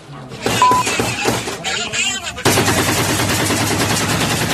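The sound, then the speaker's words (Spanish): Rapid, dense gunfire from a clash in Tamaulipas, Mexico, where Gulf Cartel factions fought an alleged incursion by the Jalisco New Generation Cartel. Bursts overlap with crackling, shattering reports, and the firing becomes a sustained, heavier volley partway through. “Es el poder de fuego en Tamaulipas, donde diversas facciones del cártel del Golfo enfrentaron una presunta invasión del cártel Jalisco Nueva Generación.”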